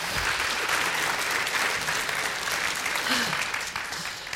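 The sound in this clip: Audience applause welcomes two speakers, one a food critic and restaurant owner, onto the stage at an evening food talk. The crowd claps as a dense, even roar that eases slightly near the end.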